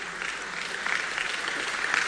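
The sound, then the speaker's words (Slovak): A crowd applauds the children at a gathering before a march, giving dense, continuous clapping at an even level from start to finish. “takže veľký potlesk pre všetky deti, ktoré sú tu, ktoré prišli od toho najmenšie až do toho 18-ročného.”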